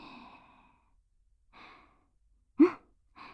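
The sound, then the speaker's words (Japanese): Breathing in and out, slow and paced: four separate soft, airy breaths with quiet pauses between them. One breath is notably sharper and louder than the rest. “息を吸って、吐いて、吸って、吐いて、”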